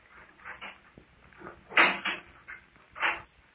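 An old prison cell door is opened with a few short rattling, scraping bursts, the loudest near the middle and another near the end, each separated by quiet gaps.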